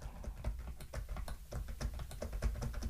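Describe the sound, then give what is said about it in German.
Key presses on a braille keyboard as a note is typed, many crisp taps at a fairly steady, quick pace with no voices. “Und jetzt kann ich schreiben zum Beispiel auch. Ich kann jetzt auch in Kurzschrift schreiben, das ist völlig egal, weil jetzt ja das alles in Braille erscheint.”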